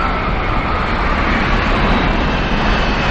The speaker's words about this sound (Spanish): Un avión de pasajeros aterriza en la pista de un aeropuerto.